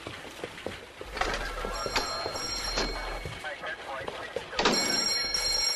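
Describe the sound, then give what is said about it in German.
A telephone rings in a cluttered police inspector's office, two bursts of bright, steady electronic tones separated by a pause, over a noisy, busy background. “Als die 3 Detektive eintraten, klingelte Cottas Telefon.”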